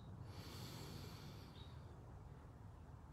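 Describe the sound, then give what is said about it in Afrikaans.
A faint, deep breath drawn in through the nose during a relaxation exercise, a soft airy hiss over a low, steady background. “En dan haal net so 'n paar keer lekker diep saam met my asem. In die neus.”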